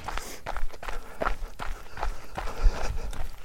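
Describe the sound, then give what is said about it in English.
Footsteps of a person running a regular outdoor loop, a steady run of many firm, even footfalls at a quick, unbroken rhythm with no voices. “I'm running my Oak Tree to Yellow House loop again.”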